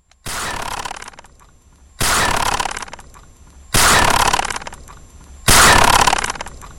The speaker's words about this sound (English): The sound of a bullet being fired into the sky.